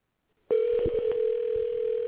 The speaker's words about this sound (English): we got a copy of that phone call. I'm going to play it for y'all right now.